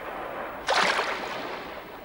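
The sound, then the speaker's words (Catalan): A turtle swims off and slips under the water with a sudden soft splash that rises out of a steady wash of waves, then fades back into it. “S'ha posat a nedar? La tortuga desapareix sota l'aigua.”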